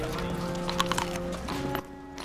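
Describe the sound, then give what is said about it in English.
An arriving horse's hooves clip-clop in a few light, uneven knocks over a steady tonal background. “Robin notices Marion arriving on her horse.”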